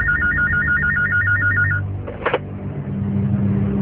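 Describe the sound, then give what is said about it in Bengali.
A telephone ringtone sounds as a warbling electronic trill, repeating steadily for under two seconds before it stops. A short sharp click follows, over a low, constant hum. “থানার OC নাফিসের number স্থানীয়দের কাছ থেকে নিয়ে phone করলেন নাফিসকে।”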